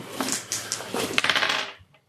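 Dice are rolled on a table during a tabletop role-playing game: a quick run of many small hard clicks and clatters that rattle for over a second, then stop.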